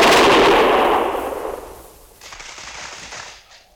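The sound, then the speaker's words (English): A volley of gunfire shot on command erupts as a loud, dense burst that slowly dies away over about two seconds, then gives way to a quieter, lingering rumble. “Prepare to fire! Ready? Fire!”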